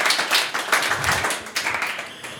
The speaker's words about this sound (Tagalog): Sige, palakpakan natin ng Lord.